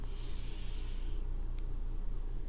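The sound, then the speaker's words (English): A deep breath is drawn in as a broad, breathy rush of air that lasts about a second. It then gives way to quieter breathing over a steady low hum. “Deep breath.”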